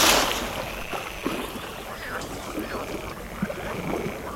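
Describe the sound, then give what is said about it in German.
Water sloshing and wobbling in a steady, noisy wash with a few slightly louder splashes, while a voice speaks over it. “Oh Mensch, wie das Wasser wabbelt!”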